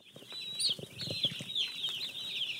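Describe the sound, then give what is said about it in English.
Day-old chicks in a brooder on a farm in Charleston peep nonstop in a dense chorus of high, shrill chirps, with soft scuffling thumps from their movement underneath. “Bill Staggs takes us into the chick brooder at his farm in Charleston. The yellow balls of fluff scatter as we get closer.”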